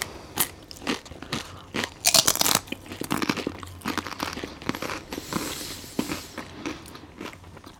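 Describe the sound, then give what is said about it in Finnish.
Popcorn-flavoured potato chips crunch as someone eats them, with many sharp, crisp bites and crackling chews in an irregular rhythm, fairly loud and with no talking. “Mutta ensin ajattelin itse ottaa muutaman popcornisipsin.”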